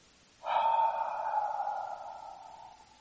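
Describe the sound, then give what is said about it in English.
A voice imitating a breath being exhaled, one long breathy, slightly voiced sound that starts abruptly and then fades slowly over about two and a half seconds, heard alone against near silence. “He breathed. Into his nostrils the breath.”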